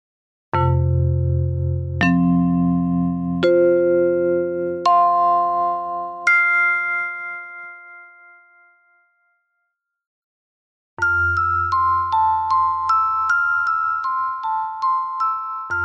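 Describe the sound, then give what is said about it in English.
Accutonic sound-healing tuning forks and chimes ring out: five separate strikes, each pitched higher than the last, hum and slowly fade. After a silent pause, a quicker run of bright, overlapping chime strikes follows. “I've added a few tuning forks and chimes from the wonderful Accutonic sound healing system to enrich the practices.”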